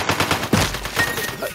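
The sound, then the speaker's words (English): AK starter rifle gunfire in a video game shooter: rapid automatic bursts of many quick, sharp cracking shots, moderately loud, with no one talking over them. “The first thing that I noticed when I got into this game and I got my first frag was how incredibly satisfying at least the AK, the starter weapon, is.”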